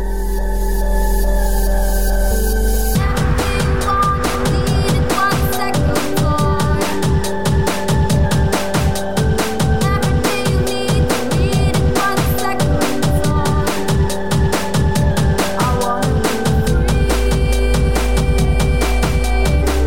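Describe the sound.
Electronic music by an electro duo: after a brief sustained synth intro, a driving, steady beat enters with pulsing bass and layered synth lines, playing alone without voices.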